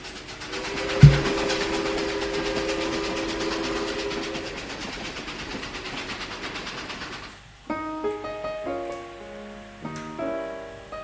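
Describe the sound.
A train whistle blows over the steady rumbling clatter of rail cars. The train sound then fades as piano notes come in.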